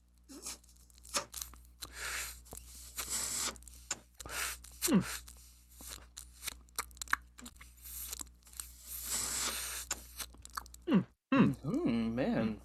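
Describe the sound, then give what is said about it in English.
Dry draws are pulled through unlit joints for a taste test, heard close and quiet as soft airy inhales and papery crackles. They come in many short, irregular bursts separated by pauses. “we're going to do a nice little dry hit taste test, ASMR, and try to guess a nice little flavor profile before we actually light these joints”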